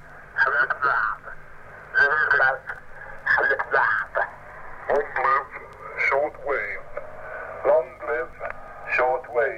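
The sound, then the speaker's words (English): A single sideband voice radio transmission is tuned with the sideband controls. A garbled voice talks in many short bursts over a low, steady hum. “This is the sound of a single sideband voice transmission. Let's bring it into focus by operating the sideband controls.”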